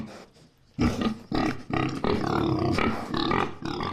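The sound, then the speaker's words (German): Loud, rough grunts and snorts from a huge boar shuffling past on a farm. Several throaty bursts follow a quiet opening and run on almost continuously. “Ein riesiger Eber schlurft vorbei.”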